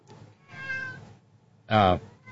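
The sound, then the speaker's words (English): A cat meows. One loud, drawn-out harmonic meow comes near the end, after softer, lower vocal sounds earlier on. “Randy Radar says, no meowing from the peanut gallery”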